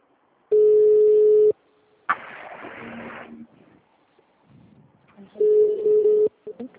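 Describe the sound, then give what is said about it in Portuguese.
Telephone ringback tone as a group call is placed: two steady mid-pitched beeps, each about a second long and roughly four seconds apart, with a burst of hiss and faint rustling in the gap. “Não, tem alguém ligando pra alguém. Quem que tá ligando aí?”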